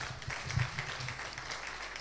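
An audience applauding during a church sermon, soft and steady clapping that holds at an even, faint level throughout.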